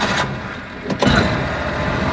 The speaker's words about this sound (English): driving us through a rolling field of green grass